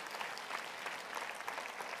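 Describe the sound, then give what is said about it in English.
An audience claps during a sermon, a steady wash of many hands applauding throughout, fairly quiet and without a break. “It's okay, we can clap for that, because it's true.”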